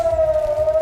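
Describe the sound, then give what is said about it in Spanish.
Air raid sirens wail in Israel in the early morning after an interception of missiles launched from Iran, a steady, loud mid-pitched tone holding level without pause through a brief stretch. “Es el sonido de las sirenas que saltaron después de que se interceptara el lanzamiento de misiles desde Irán.”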